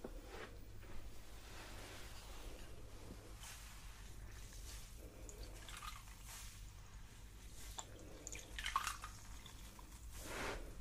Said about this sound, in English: And now let's just wash that off again with the cloth, the sponge.